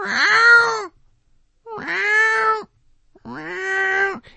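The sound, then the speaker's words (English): A person's voice imitates a cat's meow three times, each a drawn-out, whiny, nasal call with a gap between, performed alone. “I don't notice the cat at first. How I notice the cat is I just hear a,”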